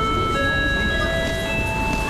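A train about to pull out makes a loud, continuous rumbling roar with sustained high whining tones layered on top, steady from start to finish.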